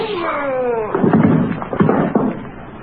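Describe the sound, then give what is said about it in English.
Gunshots in a radio drama, a few sharp, heavy bangs in quick succession following a brief quieter lead-in. “I'm afraid you killed him, Stokes. Cordell, you shot the poor devil.”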